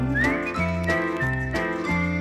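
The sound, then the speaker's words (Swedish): A person whistles a bright tune over a musical accompaniment whose low notes step along in a steady, bouncing rhythm. “Vi visslar lite grann.”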